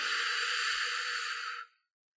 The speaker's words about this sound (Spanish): Una vez más, inhalamos profundo y al exhalar impulsamos todo aquello que hemos sacado de nuestro cuerpo